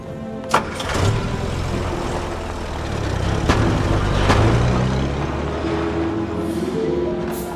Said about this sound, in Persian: بریم سوار ماشین شیم.